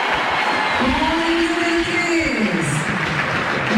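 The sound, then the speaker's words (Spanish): Stadium crowd roaring and applauding as goalkeeper Emiliano Martínez is announced in the starting lineup, a loud, unbroken wall of cheering and clapping that holds steady throughout. “Vamos a escuchar el aplausómetro de Emiliano Martínez.”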